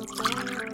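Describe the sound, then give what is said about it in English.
Wine is poured into a glass with a soft, continuous gurgling trickle of liquid that stays fairly quiet and even throughout. “That's the sound of wine in my glass, and me drinking it guilt-free,”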